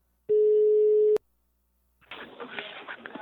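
Ringing tone of an outgoing telephone call: a single steady mid-pitched beep lasting about a second, cut off by a sharp click, then after a pause a muffled, noisy stretch.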